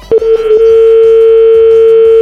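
A telephone is dialed: a few brief clicks at the start, then a loud, steady dial tone holding one pitch.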